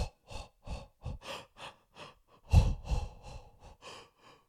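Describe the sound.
A person demonstrates rhythmic breathing paced to the cadence of running footsteps: many short, evenly spaced breaths with a steady beat, a few stronger puffs near the middle, and no talking.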